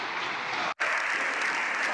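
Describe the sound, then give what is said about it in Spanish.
Applause fills a parliament chamber at the end of a session: dense, steady clapping with one very brief dropout partway through. “Evidentemente hay unos que gritan dimisión, dimisión, en 4 compases, y hay otros que aplauden como si hubiera ganado una etapa del Tour de France.”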